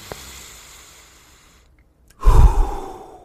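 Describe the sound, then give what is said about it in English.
A person takes a deep breath: after a quiet, faintly hissing lull, a single strong rush of air swells and fades in under a second. “So let me take a deep breath. Take a deep breath with me.”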